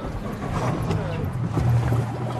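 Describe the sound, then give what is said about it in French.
A boat idles with a steady low hum and washing noise as passengers board a wet deck at a coastal nature reserve, with faint voices under it. “Donc voilà le bateau, on va embarquer.”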